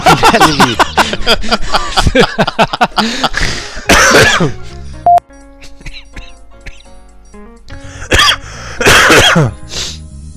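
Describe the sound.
A person coughs hard after choking on something mid-conversation. Many loud, harsh coughs come in quick rapid bursts, followed by a quieter stretch, then another strong coughing fit near the end.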